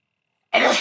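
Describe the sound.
A single sneeze bursts out after a stretch of silence. It is sudden, loud and breathy, then fades slightly as it trails off.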